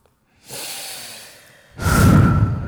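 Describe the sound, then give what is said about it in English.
A deep breath taken before answering a question: a long, soft, airy rush of breath swells, fades, then gives way to a second, louder and heavier breathy surge like a sigh, with no talking. “I gotta take a deep breath before I answer.”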